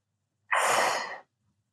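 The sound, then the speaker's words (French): A child takes one deep, airy breath that is breathy and sigh-like, lasts under a second, and stands alone between silences. “Respire, mon chéri, lui dit sa maman. Respire profondément.”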